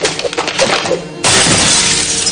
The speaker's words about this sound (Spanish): rompe la ventana con la ayuda de una silla